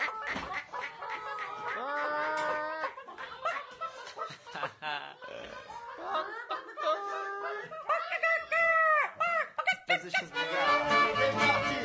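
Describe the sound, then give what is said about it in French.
Several people imitate clucking hens with wavering, high vocal clucks and squawks of changing pitch, broken up by snickers and laughter, in a lively group at a squat gathering. “On fait les poules. On fait les poules.”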